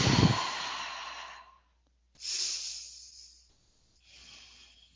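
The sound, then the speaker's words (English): Slow deep breaths taken together at the opening prayer of a community call, heard as a few long, airy whooshes separated by short silent pauses. The first breath is the loudest. “And we'll take a couple deep breaths.”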